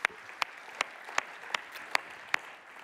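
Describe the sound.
Faint applause from a church audience welcoming a speaker to a worship service, heard as seven sharp, evenly spaced claps at a steady rhythm over a quiet background.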